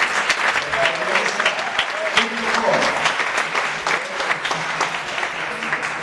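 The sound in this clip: Audience applause for a talk on vegetarian diet, a dense steady clatter of many hands clapping at moderate loudness throughout, with no clear voices on top.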